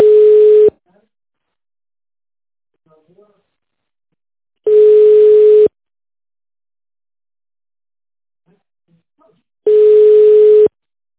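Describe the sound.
Telephone ringback tone heard while waiting on hold for an operator: three steady, mid-pitched tone bursts, each about a second long, separated by roughly four-second silences, with no voices.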